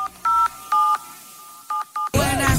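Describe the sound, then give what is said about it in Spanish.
Telephone keypad being dialed to place a call: a few clear dual-tone beeps of uneven length and spacing, then a sudden loud burst of steady line noise at the end. “Pero no sin antes hacer una pequeña llamada a Alberto González Llamazares.”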